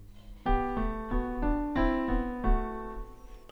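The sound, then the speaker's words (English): Piano plays a measure of implied I, III, IV and V chords as a sequence of clear, ringing notes at a moderate, even pace. The tones overlap slightly and fade out at the end. “In measure 10, we have four different chords. We have an implied 1, 3, 4, and 5. And that's going to sound like this.”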